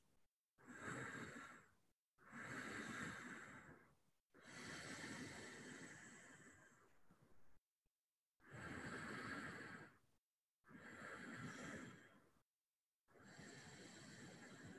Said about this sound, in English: It will be the same breath each time. And we'll do 5 rounds and see how your body feels without trying to bring it somewhere. So this is the breath.